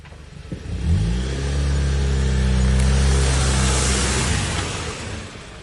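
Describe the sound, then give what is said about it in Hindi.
A car drives and then comes to a stop. The engine hum climbs as it accelerates, holds a steady note and then eases off and fades as the car slows. “Hasan ने थोड़ी दूर जाकर एक जगह पर car रोक दी।”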